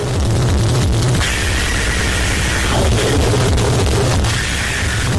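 Harsh noise music from a 73-minute album released in 1996: a loud, continuous wall of dense, grating static and distortion with no rhythm or melody. It sits alone throughout, with only slight shifts in texture.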